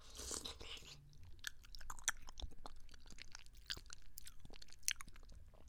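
Chewing soft tofu pudding: many small wet smacks and clicks of the mouth over about six seconds, fairly faint and steady, with no talk.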